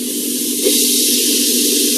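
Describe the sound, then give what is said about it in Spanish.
A steady, loud hiss of tomato sautéing in a pan with other vegetables, an even, unbroken sizzle that holds at the same level throughout. “Vamos a dejar sofreír un poquito y vamos a agregar lo que es el tomate.”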